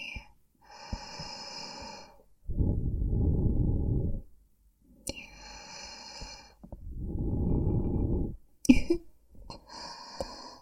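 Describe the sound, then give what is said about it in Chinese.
Close breathing right into the microphone, slow and intimate, alternating between airy, hissing inhales and long, rough, breathy exhales, with a quick snort-like catch near the end. “耳朵是不是特别的敏感？我的呼吸是不是听得非常的清晰？”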